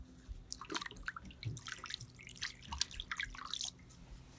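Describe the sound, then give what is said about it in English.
Hands are washed under running water, with quiet, irregular splashes and drips falling in quick succession as the water hits skin and the basin. “This is the way we wash our hands.”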